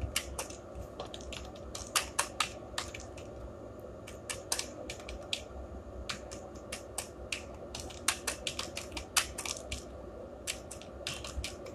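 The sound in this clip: Typing a heading on a computer keyboard: many sharp, irregular key clicks in quick bursts separated by short pauses, at a steady moderate level with no talk.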